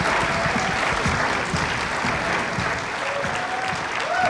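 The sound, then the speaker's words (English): Dense audience applause welcomes a singer and a fellow performer onto the stage at a Christmas special show, a steady wash of clapping that holds at an even, loud level for the whole stretch. “So let's give it up for David Longoria and April Diamond. Welcome up to the stage, please.”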